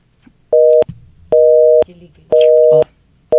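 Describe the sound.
A telephone line tone sounds as a live call is connected, steady electronic beeps repeating at an even pace: three full tones and a fourth cut short at the end.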